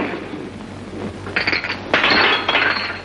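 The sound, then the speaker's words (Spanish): Several glasses knocked over on a bar in an old Western saloon: after a quiet opening, a few bright bursts of clinking and clattering glass follow one another, with a low background hum underneath. “Uno de ellos coge la botella y tira varios vasos mientras Luke guarda su arma.”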